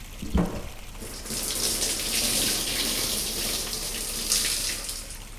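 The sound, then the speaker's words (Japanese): Hot water runs and pours as shoulders are rinsed during a bathing wash, a steady gushing hiss that starts after a brief knock and continues evenly to the end, with no talking. “お湯で流していきますね。まずは右肩から、”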